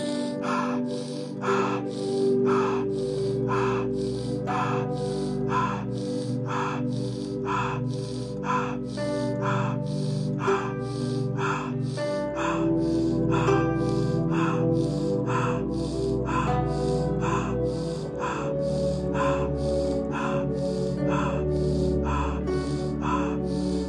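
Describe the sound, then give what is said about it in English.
Rapid rhythmic breathing, in through the nose and out through the mouth, fills a guided breathing exercise. Many even breaths come roughly once per second over a steady musical drone, with no talking. “Remember, 25 breaths in through the nose, in 2, out through the mouth, and 1. Exhale, hold at the end.”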